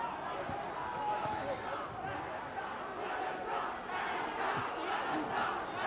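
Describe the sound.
Crowd chanting slogans in Egypt, a steady mass of many voices shouting together with rhythmic, repeated rises, heard as a continuous, fairly faint roar without pauses.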